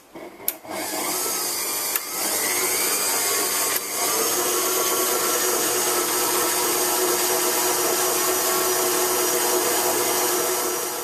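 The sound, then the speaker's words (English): An electric hand mixer beats sugar and vanilla essence until creamy, a loud, steady whirring motor drone that runs unbroken for about ten seconds with a couple of brief dips. “then mix this until it's nice and creamy. Now you can use a hand mixer, that's fine.”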